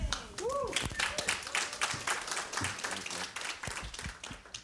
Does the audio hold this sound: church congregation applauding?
yes